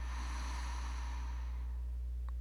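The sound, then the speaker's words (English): A deep breath is released from the belly as a soft, airy exhale that fades away over about a second and a half, set against a steady low hum. “Take another deep breath into your belly and release.”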